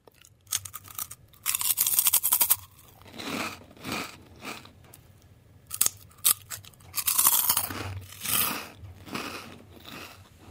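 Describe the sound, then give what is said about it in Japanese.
Crunchy potato snack sticks being bitten and chewed, giving clusters of sharp, brittle crunches separated by quieter chewing, loud and crisp with no talk. “どっちがじゃがりこを食べたか、音を聞いて当ててください。”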